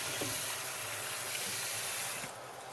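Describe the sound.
Food sizzles as it fries in a pan during a home cooking session: a steady, bright hiss that holds evenly, then drops to a quieter level near the end.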